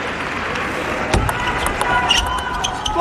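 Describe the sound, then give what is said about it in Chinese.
Crisp table tennis ball strikes during a competitive match rally: a few sharp, clicky hits ring out over a steady hiss of hall and crowd noise, the first one loudest. “林书栋拉得非常实啊，可以听到很清脆的击球的声音。”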